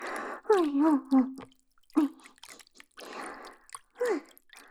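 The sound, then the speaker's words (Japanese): Wet, slippery squishing as lotion and hot water are mixed by hand, heard in several short bursts separated by pauses, with soft voiced sounds between them. “ローションとお湯を手で混ぜ混ぜして。”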